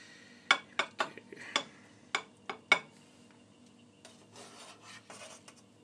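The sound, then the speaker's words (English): Food being ladled out of a pot on the hob: several sharp scrapes and knocks of the ladle against the pot in uneven succession, followed by softer scraping and rustling. “Spoon this out and hopefully not make an almighty mess on the hob.”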